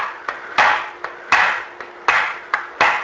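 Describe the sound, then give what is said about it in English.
Eight sharp metallic taps from a chisel worked against a stuck part to loosen it. The taps fall in loose pairs with a faint ringing tone after each hit. “Chisel, see if I can't get it loosened up here.”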